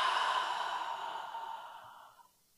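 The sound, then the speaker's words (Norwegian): A single slow breath out during a guided breathing exercise: a long, soft, airy exhale that starts fairly strong and gradually fades to nothing, with no talking. “Og pust inn en gang til. Og ut.”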